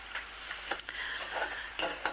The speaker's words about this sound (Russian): Вот наша скороварка кипит, шипит.